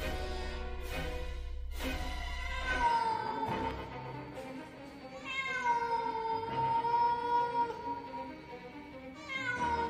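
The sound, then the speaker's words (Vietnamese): A cat meowing in a few drawn-out, tonal cries, with one long, sustained wail holding a steady pitch in the middle, clear and alone without talk. “Đang trong lúc tuyệt vọng thì tôi bất giác lại nghe tiếng mèo kêu.”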